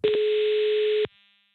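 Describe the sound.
A telephone ringback tone sounds while calling a colleague: one steady, mid-pitched electronic tone lasting about a second, then cutting off into near silence.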